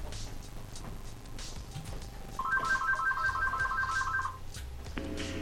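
A telephone rings with an incoming call: one burst of rapid, warbling electronic tones lasting about two seconds, standing out over a steady low background hum.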